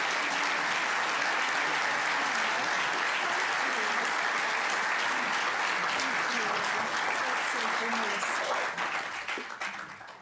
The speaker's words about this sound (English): So please now give a very warm welcome to Dr. Cassandra Newby Alexander as I present her the 2018 Rochelle Award.